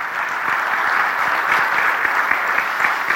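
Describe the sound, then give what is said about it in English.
A church audience claps for a guest speaker during a morning service, steady dense applause that continues without pause. “Just give James a hand as he comes to share with us this morning.”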